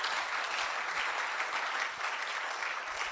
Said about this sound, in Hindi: Why don't you put your hands together